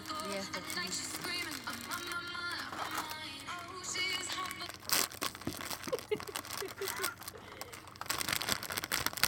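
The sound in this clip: Plastic bags crinkling and rustling in irregular bursts of crisp, sharp crackles that grow denser toward the end, with some talk in the first half.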